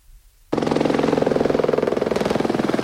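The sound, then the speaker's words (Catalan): Helicopters making repeated trips to drop water on a wildfire: a loud, rapid, steady rotor chop begins abruptly after a quiet moment and keeps a regular rhythm. “És el soroll dels helicòpters que estan fent viatges constants per descarregar aigua a la zona de l'incendi.”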